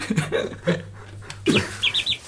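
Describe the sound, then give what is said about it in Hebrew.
A human voice imitates a tiny baby bird chick, first with a few low vocal sounds and then with three quick, high-pitched chirps near the end. “גוזל קטן, תעשה לנו גוזל קטן”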